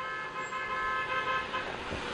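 A car horn sounds as a sustained, steady tone held through the whole clip, fairly faint among the road noise.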